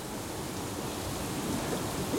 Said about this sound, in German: Aber dann kommt das heiß aus dem Fels, oder was? Ja. Dann kommt das heiß aus dem Fels.